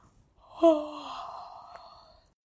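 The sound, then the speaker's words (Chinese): A single yawn from a very sleepy person, opening with a sudden voiced onset and then drawn out as a long, breathy, softly fading tone over about two seconds. “他太困了，一直打哈欠。”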